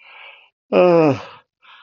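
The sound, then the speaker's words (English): A person yawns aloud early in the morning, a drawn-out voiced groan of about half a second that slides downward in pitch, set between soft breathy sounds. “what a yawning business.”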